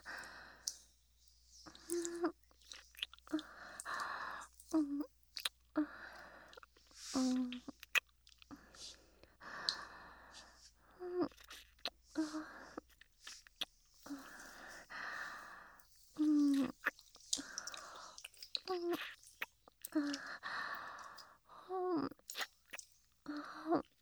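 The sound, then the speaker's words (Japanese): Soft wet kissing smacks repeat many times, mixed with breathy sighs and faint whispery vocal sounds, all quiet and close. “私もキスしちゃおうっと。”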